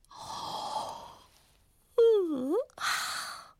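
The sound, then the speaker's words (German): A storyteller voices a yawn in a children's tale: after a stretch of talk, a drawn-out voiced yawn dips in pitch and rises again, then breaks into breathy speech. “Dann gähnte er”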